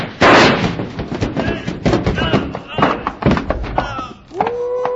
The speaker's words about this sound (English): you knocked him off the top step and he rolled all the way down right at our feet.